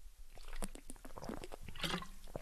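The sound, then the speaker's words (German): A person takes a sip of a drink, heard as wet mouth clicks, slurps and gulping sounds, close and fairly loud. “Ich lese mal kurz, ich muss mal kurz einen Schluck trinken.”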